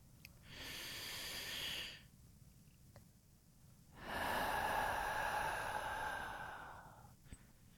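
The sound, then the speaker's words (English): Deep, slow breathing from a person lying face down during a relaxation exercise: two long, soft, airy rushes of breath separated by a quiet pause of about two seconds, the second rush longer and fuller. “Take a nice, soothing, deep breath in.”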